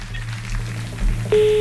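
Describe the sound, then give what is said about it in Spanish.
A telephone number is dialed to call a contestant's partner during a quiz show. A brief beep sounds over a low steady hum, then a sustained steady tone begins near the end. “ahora marcamos el teléfono de tu compañero Carlos”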